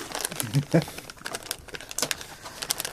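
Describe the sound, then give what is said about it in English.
A foil pack being torn open by hand, giving a dense, crinkly rustle with uneven sharp crackles throughout. A brief voiced sound breaks in near the start. “Okay, tearing it open easier than you think. Because it's foil, and it doesn't have one of those little things on the side that they already pre-perforated.”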